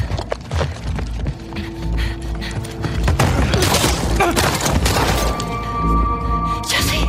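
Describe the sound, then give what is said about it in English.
Gunfire in a video game: sharp cracks and heavy booms in a dense, irregular burst, mixed with splintering and crashing game noise, loud throughout. “and Jesse gets shot in the face as you're running out. So the door opens, Jesse gets shot in the face”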